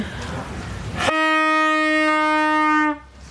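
A medieval night watchman's horn, blown by a night watchwoman at a state garden show: one loud, steady, brassy tone rich in overtones, held for about two seconds after a brief noisy onset, then cut off.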